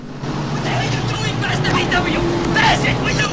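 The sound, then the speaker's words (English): A bus drives through traffic, slipping in behind a Volkswagen Beetle near a bridge. Its steady, low engine rumble mixes with road noise under a narrating voice. “The bus slips in behind a Volkswagen Beetle.”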